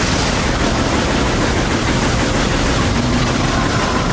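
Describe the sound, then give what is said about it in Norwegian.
Dense, unbroken gunfire from the video game Metroid Prime 3, a loud, continuous barrage of noisy blasts with no clear pauses between shots and no voices. “Bare masse skyting. Ja, det er Metroid Prime 3.”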